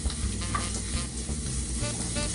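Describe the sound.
Steady sizzling of food browning in a hot pan while a breakfast dish is cooked, a dense crackle with faint stirring scrapes, even in loudness throughout, with no voices.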